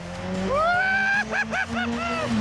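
A very fast, powerful car's engine roars under acceleration, rising in pitch through a long rev. A string of short, punchy blips of throttle follows.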